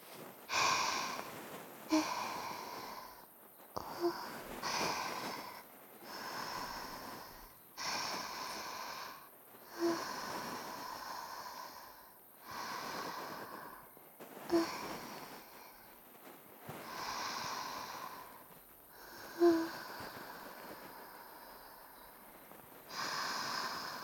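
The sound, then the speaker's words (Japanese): A foxtail grass cat toy gently massages the ears in ASMR, making a long series of soft, evenly spaced rustling strokes with brief pauses between them. “両方のお耳を、優しくマッサージしていきますね。はい、お耳、失礼いたします。”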